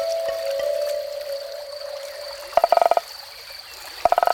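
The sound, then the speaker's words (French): A frog croaking in two short bursts of rapid, rattling pulses, loud and clear over a steady background. “Parfois, on entend une grenouille chanter.”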